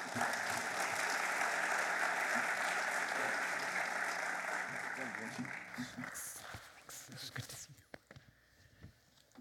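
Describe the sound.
Audience applause welcoming a pastor to the stage. Dense, steady clapping lasts about six seconds, then thins and fades into scattered claps.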